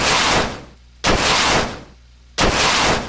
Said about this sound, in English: You hit an enemy with an attack with a type advantage. So a super effective move.